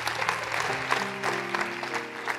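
An audience applauding during a church service: a steady, even wash of clapping that runs throughout, with low sustained tones beneath it.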